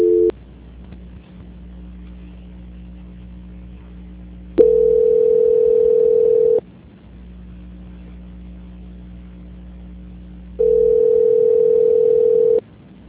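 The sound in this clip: Telephone line tone plays while a call is being transferred: two steady, mid-pitched beeps of about two seconds each, separated by a few seconds of a lower, continuous humming line tone, with no voices.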